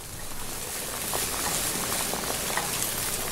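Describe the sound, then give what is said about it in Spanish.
Food fries in a pan with hot oil, giving off a continuous, fairly faint sizzle scattered with small crackles and pops that runs through the whole clip, with no talk. “Y vamos a esperar a que se frían bien.”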